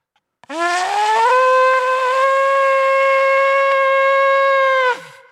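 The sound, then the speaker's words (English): Shofar, a ram's horn, sounds one long blast of about four and a half seconds. The bright, buzzy tone glides slightly upward at the start, holds steady and loud, then cuts off abruptly. “And it was incredibly tied to all of their memories, this horn all the time. It was victory was theirs, this trumpet was, the shofar was blown”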